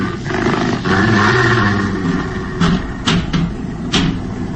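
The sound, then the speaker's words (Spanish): A hungry dog or wolf growls at a closed window at night, a low, rough, sustained snarl followed by a few sharp knocking thuds. “no puede saberse si es un perro hambriento, un lobo que ha bajado desde las cercanas montañas en busca de alimento, o un extraño y siniestro lobo humano.”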